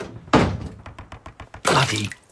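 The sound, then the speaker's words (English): A trap door is opened in a cellar as an audio drama effect: a heavy wooden thunk, then a run of many quick knocking clicks, then another loud scraping thump. “It's just this trap door, flat in the ground, middle of all these bricks and steel. So how'd you find it? Listen, where we are. You lift this trap door in this cellar.”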